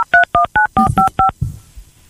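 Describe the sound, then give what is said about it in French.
Keypad tones as a telephone number is dialed: a rapid, evenly spaced run of loud, crisp two-tone beeps, then a brief stretch of faint, low rustling. “On est en train de composer le numéro.”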